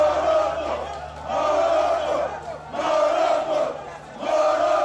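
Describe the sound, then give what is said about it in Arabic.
Moroccan football fans chant loudly to celebrate their team's win over Zambia at a tournament in Côte d'Ivoire. Massed voices rise and fall in a repeated, rhythmic phrase that returns every second or so. “هي مشاهد فرحة مزدوجة بين جمهور بلدين شقيقين تربطهما أواصر عديدة، فرحة بين الجمهور المغربي الذي حلق فرحا بفوز ثمين على زامبيا”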